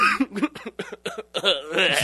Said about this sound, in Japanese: むせたごめん